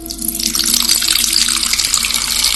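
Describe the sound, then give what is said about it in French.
Water runs from a tap into a basin in a steady, continuous rush that stays loud and even throughout, with no voices. “Je prends de l'eau, je fais couler de l'eau dans une cuvette. Première chose, l'eau coule dans la cuvette.”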